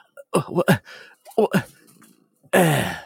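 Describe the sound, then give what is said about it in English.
A voice imitates a dying man gasping for air, giving a few short strained breaths before a long, harsh, rasping exhale. “he falls over and he's lays there and he's like gasping for air. He's like,”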